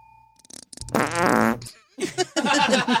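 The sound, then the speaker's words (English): Two loud farts sound in succession: a long buzzing, rasping one followed after a short gap by a sputtering, wetter burst, both rich and low with a flapping rhythm. “Whose fart is that? Yours?”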